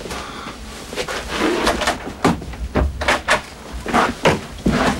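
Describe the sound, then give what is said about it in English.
Someone tries the handle of a locked door in a hall, producing a string of short rattling clicks and sharp knocks over a steady background noise, growing more insistent toward the end. “Sam tries a door. It's locked.”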